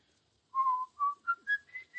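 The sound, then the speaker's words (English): A person whistles a song: a clear, solo tune of about six pure notes with short gaps, each held briefly and stepping upward in pitch, loud and steady with no voices. “Why'd you whistle that song so much?”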